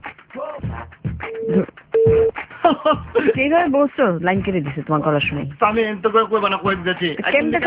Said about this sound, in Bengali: একটা ফোন আছে